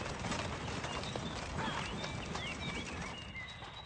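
Knights' horses galloping away, a fairly faint, continuous rush of rapid hoofbeats that thins slightly toward the end, with light bird chirps above.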